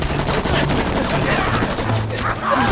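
Gunfire volley in a battle: dense, rapid crackling shots that keep up steadily and loudly through the whole clip.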